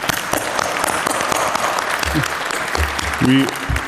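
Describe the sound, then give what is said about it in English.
An audience at a conference breaks into sustained, dense applause for the translation team. The clapping is steady and continuous, with a few voices and brief low sounds rising over it. “Please give them a huge round of applause.”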